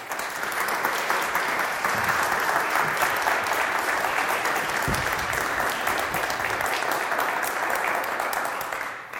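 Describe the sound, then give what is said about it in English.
Warm audience applause welcoming a guest speaker at a church event: dense, steady clapping that holds for about nine seconds before tapering slightly at the end. “So please give a warm welcome to Marva Dawn.”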